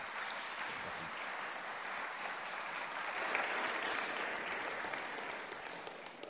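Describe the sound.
A church audience applauds to welcome a guest speaker at a morning service, a dense, even wash of clapping that holds steady and unbroken from start to finish.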